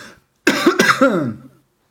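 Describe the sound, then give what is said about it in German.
A person coughs and clears a frog in the throat: a short, rough run of a few gravelly bursts with a voiced, rasping edge, heard alone without talk. “Ich muss mal eben husten.”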